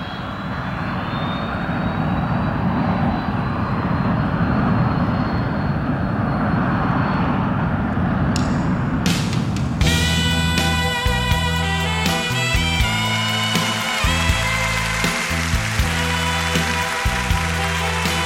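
Airliner taking off at a Tokyo airport: a broad, steady jet roar fills the first ten seconds, then gives way to music.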